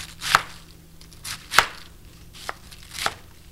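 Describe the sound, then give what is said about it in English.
Knife chopping through a quartered and halved cabbage into 1-inch chunks: a few sharp, crisp chops against the board, spaced irregularly, with a faint low hum underneath and no talking. “I've quartered the cabbage and then halved each of those quarters and cutting them into 1-inch chunks.”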